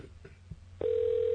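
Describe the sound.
Ringback tone of an outgoing telephone call: a few faint low knocks, then a steady, mid-pitched electronic tone sets in and holds unbroken to the end.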